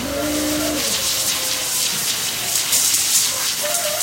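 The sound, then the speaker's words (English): A steady, broad hiss of water hosing down steers being washed for a showmanship class at a fair during a drought. The spray stays even and unbroken throughout. “We're washing our steers to get them ready for showmanship class.”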